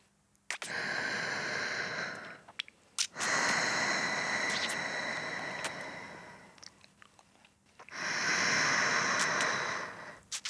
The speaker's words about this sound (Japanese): ゆっくり深呼吸しよう。お姉ちゃんが抱きしめて、一緒に深呼吸してあげる。